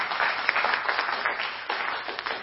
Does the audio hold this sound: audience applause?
yes